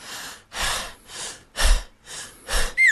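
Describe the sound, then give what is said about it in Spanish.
A man breathes heavily through his mouth, taking several loud, noisy breaths in and out in an uneven rhythm, with no speech. “Así no se respira. Se debe inhalar por la nariz y no por la boca.”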